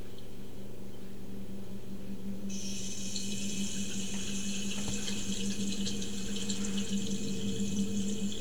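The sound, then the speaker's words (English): Water runs steadily as a wound is rinsed, a continuous even hiss over a low hum; a brighter, stronger splashing layer joins partway through and holds to the end. “I love how he cleans his wound. I gotta rinse it off before I cut it out.”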